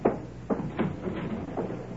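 A front door being opened in the warm evening, with several short knocks and clicks from the latch and frame spread across a couple of seconds, fairly loud against a quiet background.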